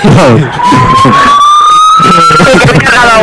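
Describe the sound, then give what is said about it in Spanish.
Emergency siren wailing on a city street, its tone sliding steadily upward as it sounds behind people talking. “Sí, hay una sirena de fondo. ¿Ha pasado algo?”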